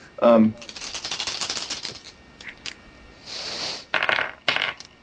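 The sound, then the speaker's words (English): Three dice clatter as they are rolled during a tabletop role-playing game, giving several bursts of rattling clicks and knocks. “Okay, 3 dice, taking the best 2 we have”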